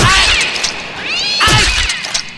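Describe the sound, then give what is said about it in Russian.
Cats returning home, meowing loudly in a few overlapping, wavering cries that rise and fall in pitch, with no voices over them. “что это за звук? Так, похоже, кошки возвращаются. Набегались.”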